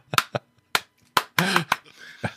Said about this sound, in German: Warte, bevor du dein Schandmaul aufmachst, klatsch nochmal schnell in die Kamera.